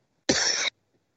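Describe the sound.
A single short, sharp cough from a person with a dry spot in the throat, a brief loud burst standing alone against silence.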